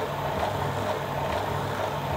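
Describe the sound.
A motor running in a hand-built crank mechanism with no gas shocks fitted, giving an even, unbroken droning hum with a low tonal buzz.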